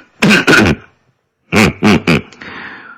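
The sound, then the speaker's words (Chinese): Throat clearing by a factory director before he speaks at a meeting of factory leaders: two voiced, rasping bursts, a short pause, then three more in quick succession, fairly loud and trailing into a softer breathy sound. “厂长乌里吉咳了咳嗓子说”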